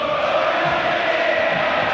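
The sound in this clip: River Plate fans cheering in the stadium to welcome their team, a dense, steady crowd roar without breaks.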